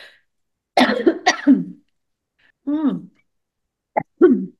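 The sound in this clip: Coughing from a tickle in the throat comes in a few separate rough bursts of one or two coughs each, with quiet pauses between them.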